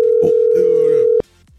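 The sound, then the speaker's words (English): A telephone dial tone for a radio call-in holds as a loud, steady single pitch for about a second, then cuts off abruptly, leaving a brief quiet gap that ends in a sharp click. “let's go to the phone lines, make the call. The moment they start ringing, the phone starts ringing, the cash starts counting down.”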